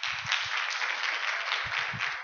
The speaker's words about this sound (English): Come on, let's clap for her. She comes up.